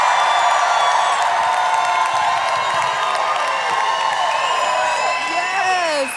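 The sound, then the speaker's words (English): Crowd applauding and cheering at CMA Fest, a country music festival: a loud, sustained roar of clapping and shouts, with scattered whoops and high whistles that rise and fall near the end. “CMA Fest, put your hands together and welcome Jelly Roll!”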